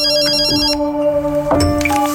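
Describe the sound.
A telephone ringtone plays loud and alone, a short run of bright electronic tones that shift pitch a few times over about two seconds.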